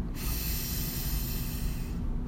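A deep breath drawn in during a guided meditation, one long steady airy rush lasting about two seconds, with no talking.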